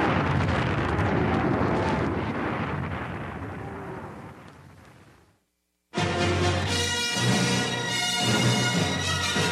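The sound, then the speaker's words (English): The Death Star, bombed by Luke, explodes in a huge rumbling roar that slowly fades out into a moment of silence, then a second loud burst breaks in with layered, music-like tones. “Looks like we made it. Through. He's going to bomb the Death Star.”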